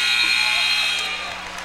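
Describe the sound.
A basketball buzzer marks the end of a period in a women's college game, sounding a loud, harsh, sustained electronic tone that fades after about a second while a voice talks underneath.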